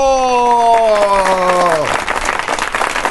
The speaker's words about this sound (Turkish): İşte karşınızda alkışlarınızla Asimo!